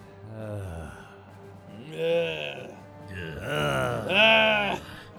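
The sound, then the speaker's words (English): Aggressive groaning from a man: a few drawn-out, strained moans that waver in pitch and grow louder toward the end. “More aggressive groaning. It's one of them.”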